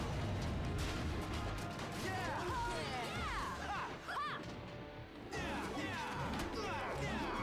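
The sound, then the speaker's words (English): The Z-Rex Blaster fires in Power Rangers Dino Thunder, a dense, loud wash of crashing, explosive noise laced with whistling sweeps, briefly thinning near the middle before surging again. “this should do the trick. Z-Rex Blaster! Ready! Aim! Fire!”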